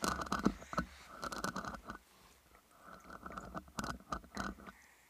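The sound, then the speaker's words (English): A woman's fingernails tap and scratch on a microphone in quick, irregular clusters of crisp clicks with short pauses between bursts, fairly faint and without talking. “That is my wife's nails. On the microphone.”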